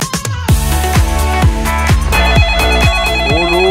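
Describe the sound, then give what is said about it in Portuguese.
A telephone rings in a studio with a rapid electronic ring that repeats in quick, evenly spaced pulses. It is loud and sounds alone throughout, with no talk over it. “mais gente ligando aqui, aqui na nossa, nos nossos estúdios do podcast Vigia Esperando a Aurora. Vamos atender aqui”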